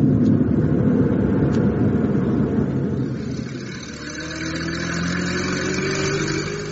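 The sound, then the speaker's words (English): An old van's engine accelerates as a loud, steady mechanical drone with broad road rumble, easing slightly midway before holding firm again. “can't you get this old van of yours to go any faster?”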